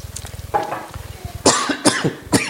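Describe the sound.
Someone with allergies coughs a few times in sharp, loud bursts, following a softer low pulsing sound at the start.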